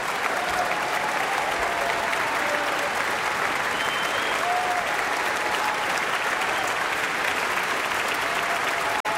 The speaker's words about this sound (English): Marc-André Hamelin taking another bow and receiving another standing ovation from the audience. So much enthusiasm.